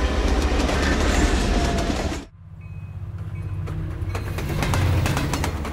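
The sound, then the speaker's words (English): A passenger train rolls on rails through the Canadian Rockies with a loud, steady rumble and faint clicking of wheels. The noise drops abruptly for a moment, then builds back up to a continuous roll. “It's a clear, sunny morning on board a passenger train in Western Canada. Breakfast is being served as the train rolls east through the Canadian Rockies.”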